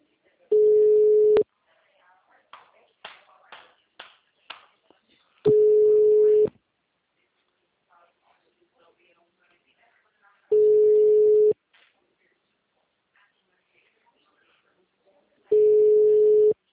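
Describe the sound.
Ringing tone of an unanswered telephone call: four steady single-pitch tones, each about a second long, evenly spaced with long silent gaps. Faint talk and small noises fall between the tones.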